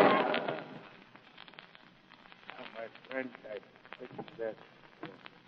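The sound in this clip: A single sharp gunshot bursts out at the start and decays in an old radio drama standoff, followed by tense voices speaking.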